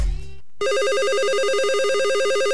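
A telephone rings for an incoming call with a loud, steady electronic warble of rapidly trilling tones. A brief, different tone comes first, then a short gap before the ringing starts.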